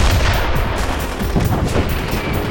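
Dense gunfire and explosive battle noise during an attack by men coming up a hill near a garage. It forms a loud, continuous roar without clearly separated shots.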